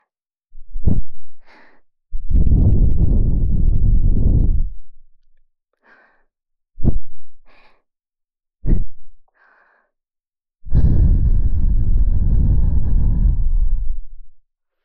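Soft air is blown into someone's ear as the finishing touch of close, intimate ear care. Three short breathy puffs and two long, steady blows are heard alone, with faint clicks between them.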